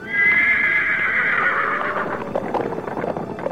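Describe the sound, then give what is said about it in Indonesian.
A black horse whinnying in a children's story: one long, loud neigh whose high, wavering pitch gradually drops and breaks into rougher, pulsing snorts toward the end, heard alone without talk. “kuda hitam kembali membawa Tio terbang”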